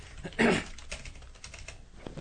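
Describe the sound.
Typing on a computer keyboard: many quiet, rapid key clicks with a louder cluster of strokes early on, then a steady patter of lighter taps.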